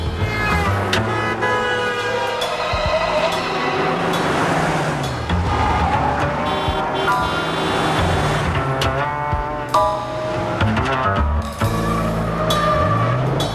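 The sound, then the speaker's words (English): A car engine drones steadily and loudly as the car, fitted with a red light, zips through town streets and intersections. The sound stays unbroken from start to end. “He drives down the street and through town. He puts his red light on his car and zips through intersections.”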